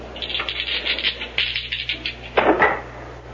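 Dice rattle and clatter during a craps game at a gambling table, first as many quick light clicks, then as one louder, fuller clatter near the end.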